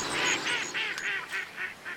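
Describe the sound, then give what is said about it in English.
Mallard ducks on a pond give a rapid run of about seven short, nasal honking quacks in quick succession. The calls are faint and evenly spaced, and no voices can be heard. “The ducks are a little closer in over here.”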